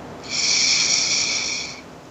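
A slow, deep inhalation during a guided calming breath exercise: a steady, airy hiss that swells in and holds for about a second and a half before easing off.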